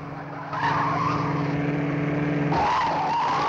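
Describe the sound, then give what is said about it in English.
Car engine drone and tire squeal as a car speeds around a hairpin bend on a winding road beside a sheer drop. The sound is steady and loud, grows stronger after about half a second, and shifts again near the end. “Francis speeds around a hairpin bend.”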